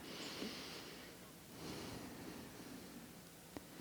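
A breath taken during a guided meditation, heard as a faint, airy nasal inhale over low hiss, followed by a brief soft click near the end.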